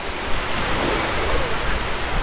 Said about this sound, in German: Die Wellen, sie sind der Grund, warum ganz besonders viele surfbegeisterte Menschen aus der ganzen Welt hierher nach Im Souan kommen. Diese brechen sich oft über 500 Meter lang.